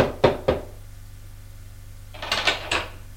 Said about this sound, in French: Elle frappe à une porte